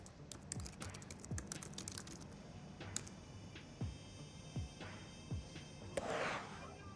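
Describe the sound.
Typing on a computer keyboard gives many faint, irregular clicks and taps in an uneven rhythm throughout.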